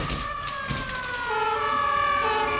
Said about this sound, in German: Was ist das? Sirenen!